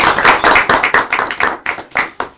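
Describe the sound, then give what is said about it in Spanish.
Hands clapping as a radio studio welcomes interview guests: a short, brisk burst of applause from a few people, with many quick, sharp claps in a steady run that eases slightly toward the end. “Un aplauso.”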